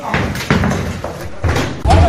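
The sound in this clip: Sledgehammer blows strike a warehouse in Valencia during a police raid, a few heavy, dull thuds spaced unevenly over two seconds, with voices talking over them.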